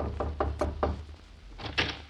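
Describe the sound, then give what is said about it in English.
Knocking on a door: four quick raps, a short pause, then two more, all fairly soft over a low hum. “See who's at the door”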